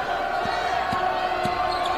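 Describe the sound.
Basketball dribbled on the court during a game, three evenly spaced, muted thuds over a continuous murmur of crowd noise.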